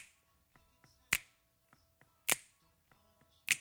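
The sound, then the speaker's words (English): Sharp finger snaps mark the chorus of a Motown soul song. Three loud, crisp snaps land about every 1.2 seconds, with faint clicks between them over quiet backing. “Now we're heading towards the chorus, and there's a couple of new elements added here. There are some finger snaps”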